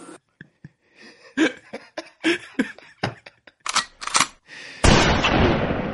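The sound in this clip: A shotgun blast fired outside a house for home defense: a few sharp cracks and clicks come first, then one loud, broad blast erupts and roars on, steady and harsh, to the end.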